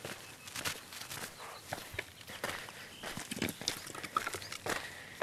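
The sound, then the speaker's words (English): Footsteps hiking down rocks on a dirt trail in a small canyon, with many irregular crunching and scuffing steps at a steady walking pace. “Hiking down some rocks, kind of like a dirt road type of situation.”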